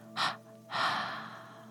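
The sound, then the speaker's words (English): Two forceful exhaled breaths through the mouth during a guided breathing exercise: a short, sharp first puff, then a longer second breath that trails off, both faint and heard alone. “with two forceful breaths through your mouth, exhale.”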